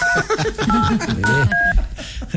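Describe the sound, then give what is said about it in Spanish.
Telephone keypad tones during a call transfer: a few short two-note beeps, loud and mixed with overlapping voices and noise. “Llamada transferida a Claro”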